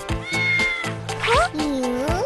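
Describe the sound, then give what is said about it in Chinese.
A beluga whale imitating a cat's meow, producing a few loud, nasal, meow-like tonal calls with gliding pitch, the calls following one another closely. “你会学猫叫。”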